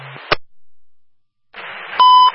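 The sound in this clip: Buffalo Fire dispatch alert tone: a sharp click and a faint hiss, a quiet gap, then a loud, steady electronic beep held briefly near the end.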